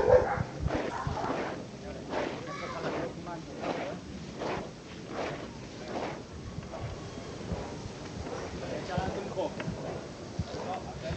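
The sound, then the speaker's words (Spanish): Costaleros shuffle their feet in a steady rachear while carrying a procession float up a street in Jaén on Holy Tuesday. Repeated rhythmic scraping runs throughout, with a voice talking over it. “por el que ahora los costaleros procesionan con este”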